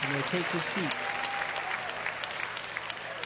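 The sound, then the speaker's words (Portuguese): An audience claps in praise at a church service, a steady, dense patter of many hands, with a voice speaking briefly at the start. “Podem louvar a Deus com palmas.”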